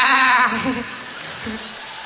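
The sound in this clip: A sheep bleats loudly with a wavering, quavering cry at the start, then fades into a few lower, softer sounds.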